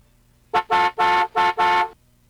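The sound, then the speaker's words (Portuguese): Volkswagen Kombi van horn on a highway, honking five times in quick succession. The short, bright toots vary in length and stand alone over a faint low rumble. “Isso é buzina de Kombi, viu?”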